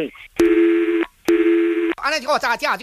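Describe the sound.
Two long, steady ringing tones of a telephone call being transferred, separated by a short pause, followed by a voice speaking on the line.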